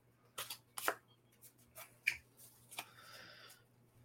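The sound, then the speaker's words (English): Playing cards are picked from a deck with a few crisp snaps and clicks, followed by a brief, soft sliding riffle of cards toward the end. “Pick card, any card. Oh, that's two. Well, I just picked one.”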